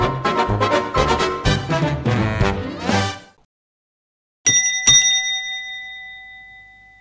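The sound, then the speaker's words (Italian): A doorbell rings with a two-tone ding-dong whose clear, high chimes ring out and slowly fade. Before it, a stretch of music stops, followed by a moment of silence. “Suonano alla porta.”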